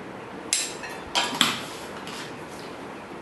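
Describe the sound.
A spoon clinks and scrapes against a bowl while sugar and salt are mixed together, giving a few sharp metallic taps spaced through a steady faint scraping.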